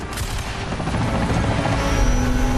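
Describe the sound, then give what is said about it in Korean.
Sustained machine-gun fire: a dense, continuous rattle of rapid shots merged with a steady roaring drone, loud and unbroken throughout. “워커가 이를 악물고 기관총을 쏜다.”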